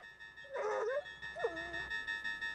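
A dog whimpers between two firemen on a fire engine on a foggy runway: two drawn-out, high whines with wavering pitch, separated by a short pause, over a steady mechanical hum.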